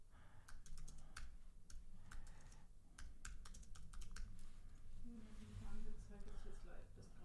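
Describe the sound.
Typing on a computer keyboard while writing a chat message: many quick, light key clicks in irregular bursts, with short pauses between runs, over a steady low background.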